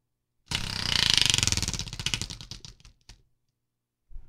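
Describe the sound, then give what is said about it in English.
A spinning wheel ratchets with rapid clicks that start fast and loud, then space out and fade as it slows to a stop, followed by a short silence and one more brief knock. “I did make sure that it can make a sound. So I'm going to try to put the microphone up there before we spin it and see if we can all hear it.”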